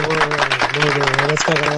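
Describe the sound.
Audience applause for a guest at the close of a session: light, scattered clapping under a steady, sustained voice, with one brief break in the middle.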